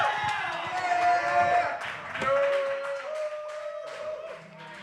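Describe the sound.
Live studio audience clapping and cheering for a band on a local music show, with scattered claps and voices mixed with lingering tones, easing toward the end.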